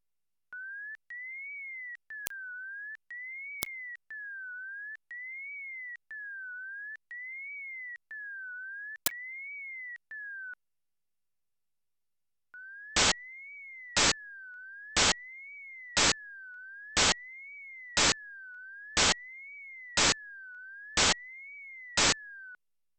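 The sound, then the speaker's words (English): Gliding sine tone rising and falling in a steady zigzag, first broken by silent gaps. After a pause, the glide resumes with its gaps filled by ten loud, short noise bursts at even intervals. “the middle points of the rising and falling sections are deleted to create silent gaps in the signal. Next, the gaps are filled with loud noise bursts. The gliding tone is heard now as being complete and continuing behind the noise.”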